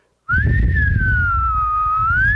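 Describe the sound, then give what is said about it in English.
A loud, shrill human whistle calls children home to eat. After a brief silence it comes as one long, sustained whistled tone that sags slightly in pitch and rises again at the end. “I mean a loud whistle.”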